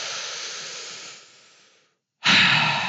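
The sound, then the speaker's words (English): Deep breathing during a relaxation and yoga breathing exercise: a long, steady breath that slowly fades out, a brief silence, then another strong breath begins, loud and alone with no talk. “Once more, a big breath in.”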